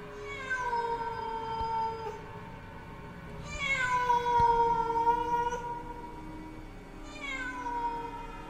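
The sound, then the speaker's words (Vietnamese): Mournful cat meowing at night: three long, drawn-out wailing meows with wavering tones, the middle one loudest, separated by short quiet gaps. “Trong màn đêm lẫn trong cái tiếng mèo kêu ai oán”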